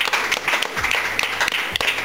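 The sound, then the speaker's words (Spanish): Short applause for a guest musician at a live talk event at the Casa del Bicentenario, uneven clapping with several sharp individual claps rising and dipping in loudness. “Pide un aplauso para Sara Eve.”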